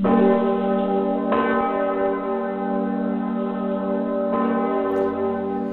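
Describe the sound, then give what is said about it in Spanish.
A very powerful church bell of about 24,500 kilograms rings in the bell tower of Cologne Cathedral. Deep, heavy strikes recur a few seconds apart, each layering onto a loud, rich, humming tone that sustains between them. “La campana más potente de Europa suena así.”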